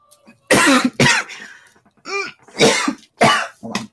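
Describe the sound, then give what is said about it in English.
Someone with something stuck in the throat clears it repeatedly, with several rough, coughing bursts and voiced grunting pushes in an uneven rhythm. “Hold on. I got something stuck in my throat.”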